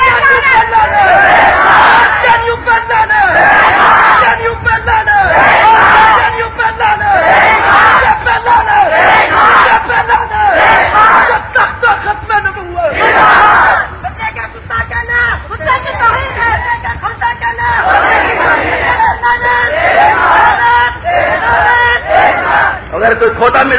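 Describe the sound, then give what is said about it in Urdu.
Large crowd loudly chanting a religious slogan at a religious gathering, shouted phrases surging in repeated rhythmic bursts every couple of seconds, many voices together and loud throughout. “یہ ثواب کا نعرہ ہے, زور سے لگا ذرا.”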